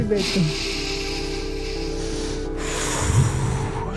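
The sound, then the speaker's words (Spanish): Deep breathing in and out at the opening of a group prayer: long, airy breaths, with a soft, steady tone underneath. “Respira profundo. Sácalo. Respira profundo otra vez.”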